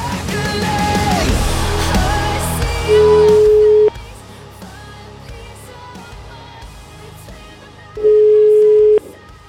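Telephone ringback tone while an outgoing call is placed: two steady, mid-pitched beeps of about one second each, roughly four seconds apart, over continuous background sound.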